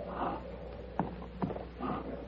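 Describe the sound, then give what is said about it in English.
A wounded horse that has been shot breathes heavily, with a rough snorting breath at the start and another near the end, separated by two sharp thuds like hoof knocks, moderately loud over a low hum. “Good Lord. This horse has been shot. What do you think happened? Carver, get down and help me doctor this horse.”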